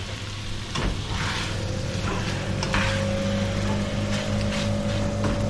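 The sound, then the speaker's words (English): A kitchen fan switches on while curry cooks, adding a steady roar with a low hum. A whirring tone emerges and rises slightly as the fan spins up, with soft sizzling underneath. “I think pretty soon we're going to be turning the fan on. In fact, I'll do that now.”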